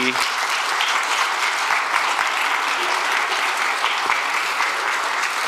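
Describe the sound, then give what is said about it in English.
Audience applause welcoming guests onto a stage: a dense, steady wash of clapping hands that keeps an even level for the whole stretch, with no clear break. “So without further ado, can you please put your hands together and welcome Joseph and Mary.”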